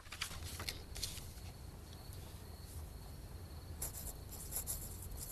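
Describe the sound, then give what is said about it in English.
A pen writes in a diary, making faint, scratchy strokes in short irregular bursts over a soft background hiss. “Later, she opens the diary to the 1st of January and starts to write.”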